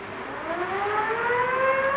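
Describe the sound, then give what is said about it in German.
Siren of the Russian icebreaker ship Krassin sounds a loud, sustained wail whose layered harmonic tones climb slowly in pitch throughout. “Sirene! Das ist der Krassin!”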